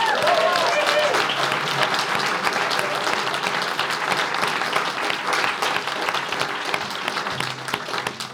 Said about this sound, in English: And how about a huge hand for our amazing sound engineer from Nashville, Tennessee? That's Eric Jaskovia.